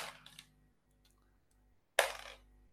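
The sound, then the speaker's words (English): Five dice rolled for an attack in a tabletop game: a short rattle, a quiet pause, then a loud, bright clatter as the dice tumble and settle. “So she's rolling 5 dice.”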